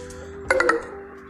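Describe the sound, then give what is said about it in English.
A mobile phone notification chime goes off: three quick, bright tonal pings in close succession, ringing over a low steady background hum. “I'm sorry that that's my phone, but it doesn't matter.”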